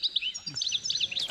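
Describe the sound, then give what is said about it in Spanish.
Goldfinch song: a rapid, continuous run of high, bright twittering notes and chirps, fairly faint and heard alone. “No, este parece un petirrojo, pero un jilguero. Ah, un jilguero. Un jilguero, un jilguerito.”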